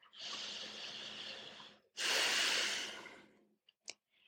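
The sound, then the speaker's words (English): Slow breathing during a guided prayer meditation: a long, steady, airy inhale, then a longer and louder breathy exhale, followed by a couple of faint short clicks. “Let's begin to breathe.”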